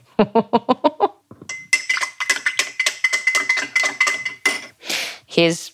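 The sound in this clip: Quick clinking of a tablespoon stirring a pungent mixture: a rapid run of about seven light, even taps at the start, followed by a person talking.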